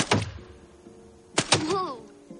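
Paintball rifle shots in a forest striking rusty metal targets, heard as a few sharp, abrupt thuds with a brief vocal sound after the later pair.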